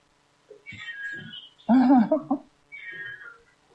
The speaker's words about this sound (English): And we have a kitty still freaking out.